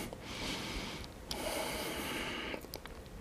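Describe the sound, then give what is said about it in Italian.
Breathing out and in during a leg exercise: two long, airy breaths followed by a few short, choppy ones. Fairly quiet, with no voices. “Naturalmente quando faccio questo lavoro c'è sempre la respirazione, che sarà espiro, inspiro, espiro, inspiro.”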